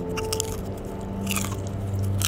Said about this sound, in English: It's true, popcorn crunches really stand out.